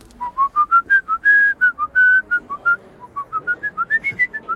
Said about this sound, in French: C'était vous, le sifflement? Je le fais pas aussi bien que vous.